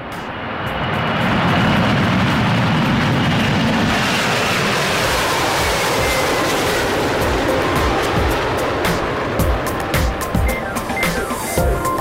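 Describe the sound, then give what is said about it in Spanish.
Aircraft engine roar of a plane taking off: a broad, rumbling wash of noise that swells over the first two seconds, then holds loud and steady for about ten seconds. “Ha sido un despegue perfecto y muy suave.”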